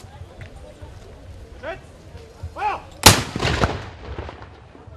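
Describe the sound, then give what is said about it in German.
A military pioneer battalion fires one loud gun salute to open an event at a historic copper smelting furnace. The sharp blast is followed by a rumbling decay and comes after a few brief shouted calls. “Zur Eröffnung ließ es das Mansfelder Pionierbataillon so richtig krachen. Achtung, wir schießen!”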